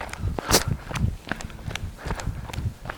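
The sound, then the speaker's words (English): Running footsteps of a person on a trail through a hammock, a steady rhythm of many soft thuds and scuffs at a moderate level. “I made almost a complete first loop in the hammock, and I have run about 2.5 miles.”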